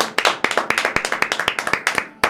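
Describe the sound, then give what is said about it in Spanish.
Sparse audience applause on a program, made of sharp, distinct hand claps in a fairly regular rhythm, many separate claps with brief gaps rather than a dense roar. “Forte aplauso tamén para Xavier Loureiro, por favor.”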